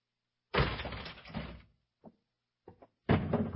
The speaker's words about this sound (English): we'll open the door